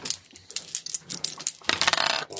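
Dice clatter and rattle as several are rolled during a tabletop role-playing game, a run of quick, sharp clicks that ends in a louder, denser burst of rattling before stopping.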